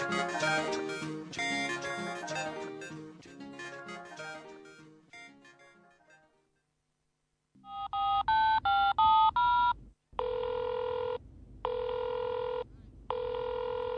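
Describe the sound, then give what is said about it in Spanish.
Telephone keypad dialing tones in a quick run of beeps, then three long, even ringback tones of a call going unanswered; soft music fades out before the dialing. “Uy, la puta madre, este Mariano que no me atiende.”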